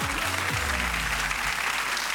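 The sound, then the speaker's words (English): Raucous studio audience at a TV game show applauding: continuous, dense clapping that stays fairly even and moderately loud throughout. “a really particularly raucous audience tonight, and I like it”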